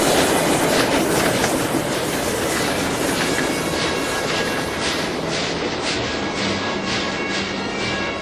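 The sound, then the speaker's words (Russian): A freight train rolls past in a loud, continuous rumble of wagons with steady clickety-clack from the wheels and a faint high squeal riding over the noise for the whole stretch. “Присматривается к проходящему мимо товарному поезду.”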